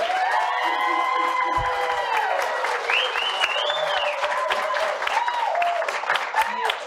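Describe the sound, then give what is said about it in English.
A live audience applauds and cheers a guest, with loud, sustained clapping mixed with whoops and shouted calls at a full, even level. “So let's, Patriots, let's give it up for Kari Lake.”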